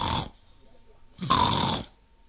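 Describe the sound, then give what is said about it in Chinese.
A voice imitates snoring with two raspy, breathy snore sounds separated by a quiet pause, the second one louder and longer. “我也打呼噜，咱俩来个瘸拐里拔眼儿挤，你呼噜我，我呼噜你。小雨墨坐在门槛上，也装着打呼噜。”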